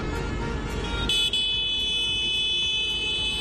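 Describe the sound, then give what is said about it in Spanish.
A tractor horn blares from a convoy of hundreds of farm tractors driving toward Paris during a farmers' protest. A low engine rumble runs throughout, and the steady, high, buzzy horn cuts in after about a second and holds nearly to the end. “Es el sonido de centenares de tractores marchando hacia París.”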